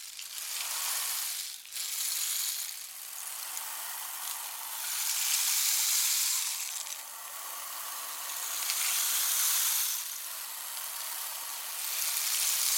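Heavy rain pours down in a dense, steady hiss. The downpour swells and eases in slow waves, with no voices over it.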